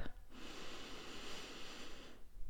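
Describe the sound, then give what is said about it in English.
A single long, deep breath during a guided meditation, a soft steady airy rush lasting about two seconds, heard alone against a quiet background. “All right, so I want you to just take a nice deep breath.”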